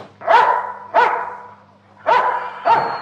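A small dog barks four times in sharp, evenly spaced yaps, with a short pause after the second bark.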